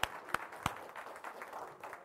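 Hand clapping from a church audience giving a clap to the Lord during a morning service: three sharp, distinct claps at the start, followed by a faint, soft patter of scattered clapping.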